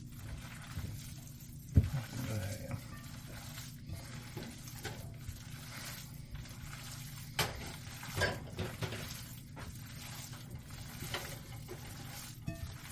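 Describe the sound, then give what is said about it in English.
Wet, soft squishing of hands working raw meatball mixture with egg for a Mother's Day meatball dish, irregular squelches over a low steady hum, with one louder knock near the start. “I'm not good at many things, but I'm good at playing with my meat. Mm-hmm. Alright. Mix it till it almost feels like you can't feel the egg.”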